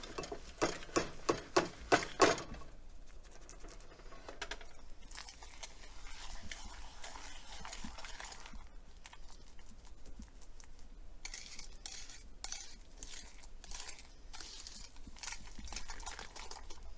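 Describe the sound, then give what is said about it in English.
A cup of sugar being mixed with other ingredients until fluffy: a faint, continuous rough scraping and churning noise, with a few sharp clicks at the start. “And then you're gonna mix that together. So it's all nice and fluffy.”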